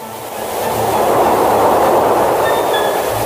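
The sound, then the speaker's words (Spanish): A train passes near a river during a fishing trip, its broad rumbling roar swelling within the first second and holding loud and steady to the end, with no voices over it. “¡Viene el tren!”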